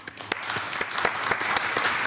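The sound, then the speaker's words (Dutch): An audience gives warm applause to welcome two jury members: dense, continuous clapping at a steady, moderately loud level, with no voices over it. “Geef ze een hartelijk applaus.”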